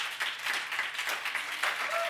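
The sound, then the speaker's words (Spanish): Applause from clapping hands, a dense, steady patter of overlapping claps at a moderate level that keeps going without a break. “aquí no se ve, pero ahora está aplaudiendo, gozándose,”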